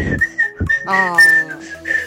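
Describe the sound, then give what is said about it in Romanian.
A person whistles a short run of clear, high notes, several brief chirps around a longer held tone in the middle. The notes are mostly steady in pitch and loud, with no talk. “Nu știu cum am putut să fluier, dar totuși foarte îmi place bine.”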